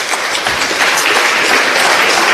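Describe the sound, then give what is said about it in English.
Applause from an audience greeting club teams named in a junior championship draw, a steady, dense crackle of many hands clapping at once with no voices over it. “And a round of applause for all of them.”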